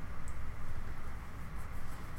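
Drawing on paper: a faint, steady scratching of a drawing tool moving across the sheet, soft and continuous with no speech.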